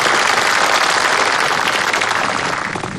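A room full of people applauds to welcome a division commander who is about to teach a class: dense, steady clapping throughout that eases off slightly at the end.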